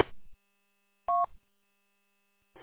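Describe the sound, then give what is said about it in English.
Telephone keypad being dialed for a call on the way into the office: one clear short two-tone beep, with brief fainter sounds at the start and end. “going to make a phone call here on my way into the office.”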